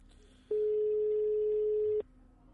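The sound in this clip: A telephone ringback tone plays while a call is being placed: a single steady, mid-pitched tone that lasts about a second and a half, heard alone with no talk.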